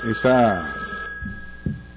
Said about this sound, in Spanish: Tenemos una llamada, ¿cómo le va la vida?